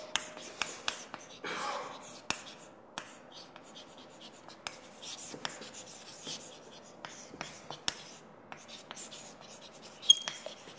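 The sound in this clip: Handwriting during a lecture: many small scratchy pen or chalk strokes and taps in an uneven rhythm, faint and mostly alone, with a soft breathy murmur at moments.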